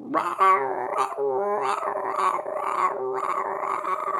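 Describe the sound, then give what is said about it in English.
A person imitates a pet dog barking for attention with a continuous run of whiny, yelping, howl-like dog noises. The voice is fairly loud and comes in rising and falling bursts. “if I don't pay attention to him when he starts barking like that, he'll start, like, barking even more. He'll be like,”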